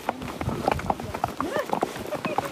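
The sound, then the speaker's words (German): Horse hooves clip-clopping during a hike in the Swiss mountains, a steady run of many sharp hoof knocks in an even walking rhythm. “Und so wandern wir im Takt der Hufe.”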